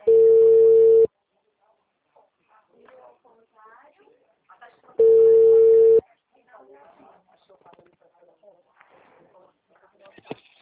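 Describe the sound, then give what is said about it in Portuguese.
After a dropped phone call, two long, steady telephone tones sound, each lasting about a second and spaced a few seconds apart, with faint talking in between. “A ligação da senhora caiu, é o Marcos”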